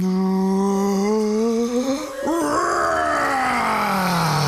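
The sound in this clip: A voice imitating a dragon breathing fire lets out a long, loud, strained groaning roar that holds steady for several seconds, wavers midway, then slides lower toward the end.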